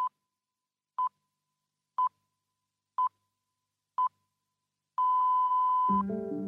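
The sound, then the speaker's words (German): Radio hourly time signal marking the full hour: five short, identical high beeps spaced one second apart, then a sixth, longer beep of the same pitch, followed by the onset of a different tonal sound. “sechs Pieptöne, fünf kurze, ein langer, vor genau 101 Jahren zum präzisesten öffentlichen Taktgeber der Welt wurde. Denn diese sechs Pieptöne kündigen die volle Stunde an.”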